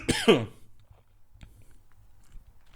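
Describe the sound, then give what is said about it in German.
Someone with a strained, failing voice gives one short, rough throat clear at the start. Near silence follows, with only faint small rustles. “Räusper dich einmal.”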